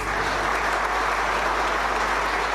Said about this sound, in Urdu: اور جب انہوں نے کہا کہ آج کے بعد پارلیمان ممبران بے جا مداخلوں سے باز رہیں تو حال تالیوں سے گونج اٹھا۔